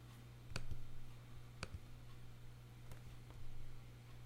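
Mouse clicks while assigning user accounts in software: a few soft, crisp ticks, some in quick pairs, spread out over a steady low hum.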